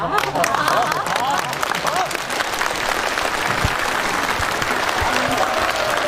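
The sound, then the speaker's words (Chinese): Wedding guests break into warm applause, a dense, steady wash of many hands clapping that holds evenly throughout, with voices audible early on. “那我们接下来用热烈的掌声，有请沈明珠女士”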